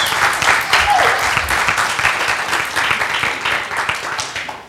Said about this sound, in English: Give him a round of applause, please.